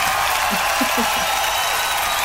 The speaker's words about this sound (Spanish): ¡Aplauso para las neuronas!